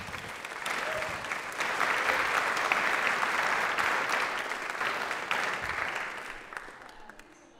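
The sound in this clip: An audience gives warm applause to welcome a speaker forward, with steady, dense clapping for about seven seconds that tapers off at the end.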